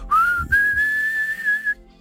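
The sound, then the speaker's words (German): Mouth whistling: a clear, high tone slides up at the start, breaks briefly, then holds a long, nearly level note before cutting off, whistled to find the pitch of a song. “So, holt die Pfeifen raus, wenn ihr eine dabei habt, zufälligerweise. Ansonsten macht's doch einfach mit dem Mund.”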